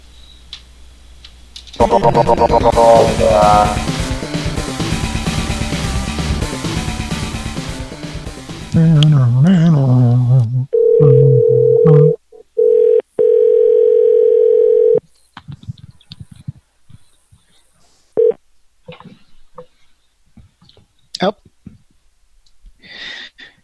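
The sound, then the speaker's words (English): Telephone dialing and a dial tone as a call is returned: a loud, dense noisy burst runs for several seconds, then a steady mid-pitched tone sounds with a few brief breaks, followed by faint scattered clicks. “Should we give him a call back?”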